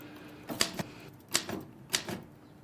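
Typing keystrokes sound as a few quick bursts of sharp, faint clicks, each burst holding two or three strikes, separated by short pauses with no voices.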